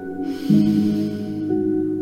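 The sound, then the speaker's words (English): A slow, deep inhaled breath during a calm guided meditation, a soft airy rush that swells and lingers over a sustained, steady tonal drone. “Let's take a nice deep breath here in this gratitude moment”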